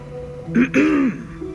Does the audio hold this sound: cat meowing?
no